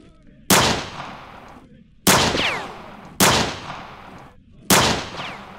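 Four loud gunshots ring out at irregular intervals, each a sharp crack followed by a long, fading echo-like tail. Quieter stretches fall between the shots.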